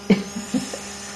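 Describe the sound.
An electronic blood pressure monitor taking a measurement at a medical check-up: a few short, low electric buzzes from its pump over a faint steady hum.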